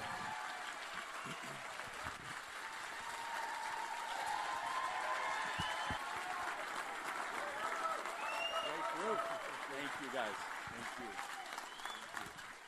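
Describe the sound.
Applause from an audience welcoming a speaker to the stage: sustained, faint clapping that swells through the middle and eases off toward the end.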